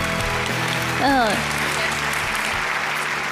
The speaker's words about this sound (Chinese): 接下来让我们掌声请上今天做客养生堂的另外一位专家